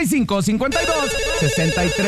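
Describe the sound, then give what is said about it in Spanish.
A telephone ringtone sounds for an incoming call: a steady, bright electronic tone that enters partway through and carries on under a sung melody with music. “Tenemos llamada.”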